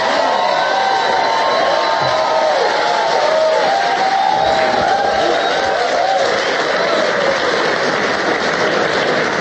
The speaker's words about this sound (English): Why don't you put your hands together and welcome the one and only Alex Jones!